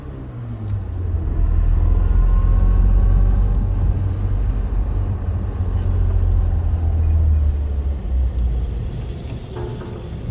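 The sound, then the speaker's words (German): A car's engine is left running while parked, giving a steady low rumble for about ten seconds that swells slightly early on and then holds even, with no talking. “Was ist mit dem Motor? Läuft weiter.”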